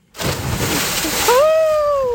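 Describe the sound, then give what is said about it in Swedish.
Water splashing as a person plunges into the sea in Malmö: a sudden burst of loud, hissing, sloshing noise that continues steadily, with a high sustained tone rising over it near the end. “äntligen plumsa i vattnet i Malmö”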